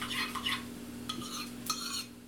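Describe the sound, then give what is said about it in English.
Soft stirring in a pot as kashk thinned with broth is mixed into a Persian noodle soup, a few faint scraping strokes of a utensil against the pot, with no voices. “we ladled some of the broth into a bowl with the measured kashk and mixed it until it was nice and smooth. Then we stirred it into the soup.”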